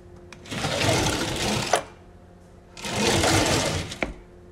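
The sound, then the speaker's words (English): A drawer slides twice. Each pass is a rumbling scrape lasting about a second and a half and ends in a sharp knock, with no voices. “It was a drawer getting closed and open.”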